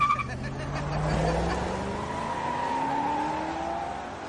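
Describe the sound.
An Audi car drives off, its engine revving loudly with a steadily rising pitch that holds throughout, with no talk.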